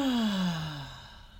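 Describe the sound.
A deep breath out, voiced as a sigh during a guided breathing exercise. The single exhale slides downward in pitch and fades gradually over about a second and a half, with no other sounds.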